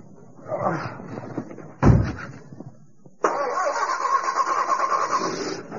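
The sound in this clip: A car engine is being started. Rough cranking sputters come first, then a sharp thump, and after a short pause the engine catches and settles into a steady, even rumble.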